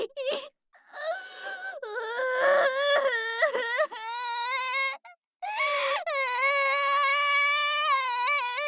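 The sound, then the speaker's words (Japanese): High-pitched wailing sobs in several long, wavering bursts broken by brief pauses, loud and alone with no other sound. “泣き出しちゃった。”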